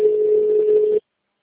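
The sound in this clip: A single steady telephone ringback tone: a flat, mid-pitched electronic hum held for about one second, then cut off abruptly into silence.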